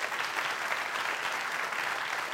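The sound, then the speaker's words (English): A church audience applauds with a hand clap of praise, a dense and even roar of many hands clapping together that stays steady throughout. “Now give the Lord a hand clap of praise, because this, to me, this is exciting.”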